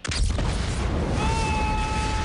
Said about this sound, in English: She hits the switch and the building explodes.